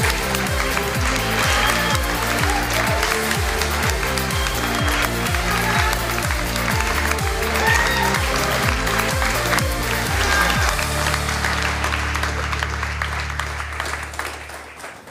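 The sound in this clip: Audience applause welcoming Jean Chrétien at a public event: loud, dense clapping over rhythmic music with a pulsing beat. Near the end the music settles into held tones and the clapping thins out.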